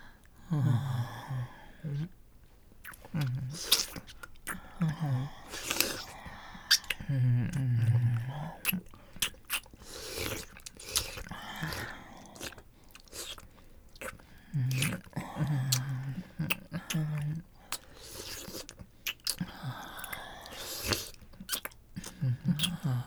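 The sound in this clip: Someone chewing and biting into food in an intimate whispered eating session: many quiet, wet, squelching chews and bites in irregular bursts, broken by soft breaths and whispering, the sounds rising and falling over about twenty seconds.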